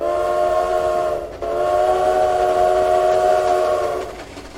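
Train whistle sound effect: a steady, bright tonal whistle blast that breaks briefly, then sounds a second, longer blast before fading out, with a faint rail rumble beneath and no voices.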